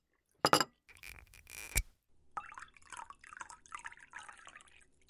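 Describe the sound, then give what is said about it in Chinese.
Red wine is poured into a glass after a few brief clatters, then gurgles in a bubbly, uneven stream of small glugs and splashes that keep going to the end. “来来，把红酒打开，倒一点酒嘛。”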